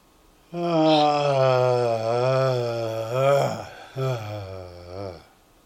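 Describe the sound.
A person voices a sound on a deep exhalation, a steady, fairly low hum-like tone held for about three seconds, followed by a shorter second voiced breath out.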